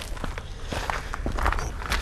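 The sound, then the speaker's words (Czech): Footsteps climb the lookout tower at Cibulka, a quick, irregular series of thudding, scuffing steps at a fairly even loudness. “Tak, lezeme na věž na Cibulce.”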